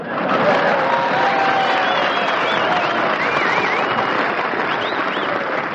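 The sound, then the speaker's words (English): Enthusiastic audience applause, a loud, sustained roar of clapping and cheering with several shrill, wavering whistles rising above it. “Boy, there's an enthusiastic audience.”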